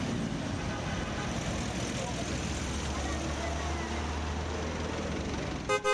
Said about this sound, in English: Let's ride this jeepney and start our journey.